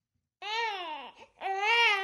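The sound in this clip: A baby cries in two loud, harmonic wails separated by a brief catch of breath, the second wail climbing slightly in pitch.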